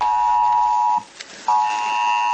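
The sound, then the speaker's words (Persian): A mobile phone emergency alert tone warning of storms such as tornadoes, snow and rain: a steady, piercing electronic tone that cuts off for a moment, then resumes and holds, with no voices. “این زنگ هشدار برای طوفان و برف و باران از طریق گوشی‌های همراه جان انسان‌ها را نجات می‌دهد.”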